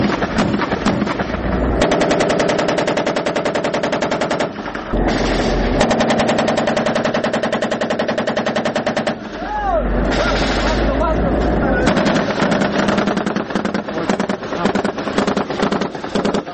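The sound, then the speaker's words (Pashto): Heavy gunfire is traded between Afghan soldiers and Taliban fighters in battle: dense, rattling bursts of automatic fire that barely pause, loud and sustained throughout, with voices surfacing at moments between the volleys. “د دواړو طرفونو څخه یو پر بل پریمانه ډز کیږي، ځکه خو سرتیری په خپل منځ کې خبرې نه اوري.”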